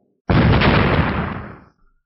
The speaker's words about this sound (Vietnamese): Hai tiếng nổ kinh thiên động địa vang lên